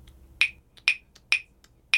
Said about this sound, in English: I recently bought a set of clave. It's basically two wooden dowels. You hold them in a certain way and you click them together in that clave rhythm, and it sounds like this.